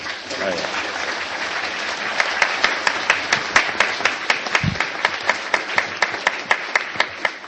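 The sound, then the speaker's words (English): Applause from an audience at a gathering, thanking contributors from the stage and the floor: many hands clapping steadily for several seconds, with the claps growing sharper and more evenly spaced partway through. “So I think we should give a hand to all those people who contributed up here and the people who contributed from the audience. I think they all deserve a big hand.”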